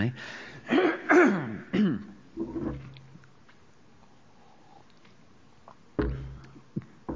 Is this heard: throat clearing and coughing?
yes